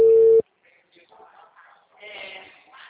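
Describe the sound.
A short telephone line tone sounds while a call is being placed: one steady, mid-pitched beep that cuts off abruptly. Faint, low, indistinct sounds follow.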